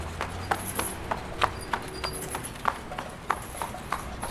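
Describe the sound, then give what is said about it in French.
A horse canters calmly in an indoor riding arena, its hooves making a steady, rhythmic clip-clop of soft thuds with sharper strikes at regular intervals throughout. “Ah, il ne force pas, il laisse tomber dans le galop tranquille.”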